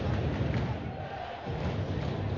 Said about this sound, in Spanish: el público que se viene arriba